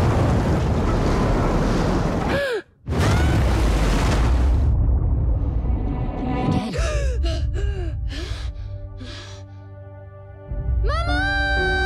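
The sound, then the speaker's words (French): Rough, heaving sea waves roar loudly with wind buffeting the microphone. The rushing cuts out briefly once, and high squealing tones break in over the surf later. “La mer est démontée.”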